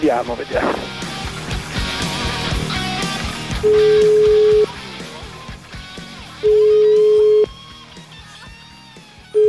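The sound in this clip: Steady electronic ringing tones of a phone call being placed to a farmhouse near Lecce. Three even, level beeps about a second long come with pauses between them, after busy music at the start.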